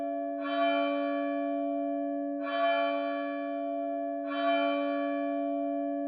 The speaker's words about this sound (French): L'humeur est légère lorsque le clocher de Vos sonne les douze coups de minuit.